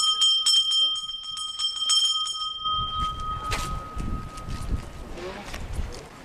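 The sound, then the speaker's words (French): A bell rings at nine o'clock to call children at a centre where young migrants learn French. Bright, sustained ringing tones last a few seconds, then give way to rumbling background noise. “Donc là, il est 9h. Je sonne.”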